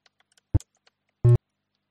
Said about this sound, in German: Ähm, halt, das war der Fehlerton. Da habe ich mich verdrückt.